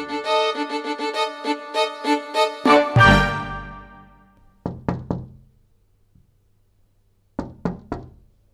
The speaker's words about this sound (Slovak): Až raz sa ozvalo tiché zaklopanie a milé hlásky vonku za dvierkami zaprosili.